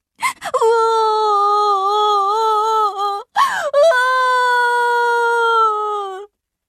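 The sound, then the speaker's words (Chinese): Young chicks Carmelito, Berio and Carmen cry loudly at a sad farewell between friends. Two long, sustained wails hold a fairly steady pitch, separated by a brief break. “卡梅利多和贝里奥哭了起来，卡门也放声大哭。”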